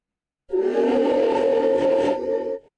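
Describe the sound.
A deep, sustained roar of the Fellreaver creature from a video game, one steady blast of about two seconds that holds full loudness and then cuts off abruptly, heard alone with no talk.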